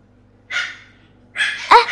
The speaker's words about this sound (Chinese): 可能是邻居家养的小土狗